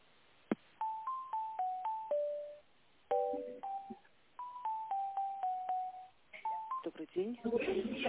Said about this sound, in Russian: Please use tone dialing or wait for the answer of the secretary.